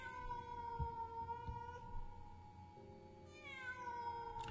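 A cat cries out in faint, drawn-out, wavering calls likened to a child with asthma in the night. The calls run almost without a break, shifting tone partway through.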